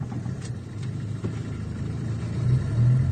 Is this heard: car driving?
yes